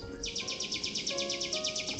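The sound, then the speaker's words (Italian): Small bird singing on a windowsill, a quick, even trill of high, bright chirps repeating steadily throughout, fairly faint over a soft background. “notò un uccellino fermo sul davanzale che cantava felice”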